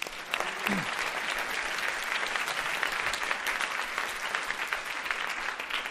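Participants in a coaching training session applaud themselves with a full, even burst of clapping that stays loud and steady for about six seconds, with no talk over it.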